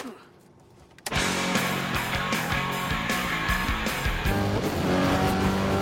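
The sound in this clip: A motorized vehicle speeding along a road, its engine bursting in loudly after a quiet opening second, then a sustained, roaring drone with gritty, shifting texture that stays loud to the end.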